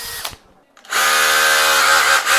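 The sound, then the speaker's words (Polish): A power drill in a radio workshop: after a few short clicks and a brief lull, the motor whirs up into a loud, steady, high whine that runs to the end with only a slight dip near the close. “I tam właśnie dorwałam się do wiertarki.”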